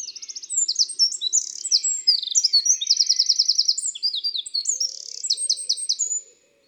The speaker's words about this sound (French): on voit toujours le troglodyte seul. Il est minuscule, mais son chant est puissant, strident et vigoureux.